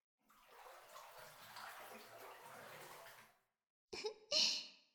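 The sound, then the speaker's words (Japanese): Water sloshes and splashes in a bathtub, a continuous soft washing sound for about three seconds, then a brief silence before a couple of louder, sharper splashes. “それじゃあ、体洗ってもう一回お風呂に浸かろうか。”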